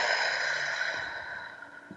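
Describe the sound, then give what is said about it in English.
A slow, deliberate breath is drawn in through the nose and pushed out through the mouth as if through a straw. It comes as a single soft, airy, sustained rush of breath that gradually fades, with no talking. “So let's take a moment and just breathe. Breathe in through your nose, out through your mouth like through a straw.”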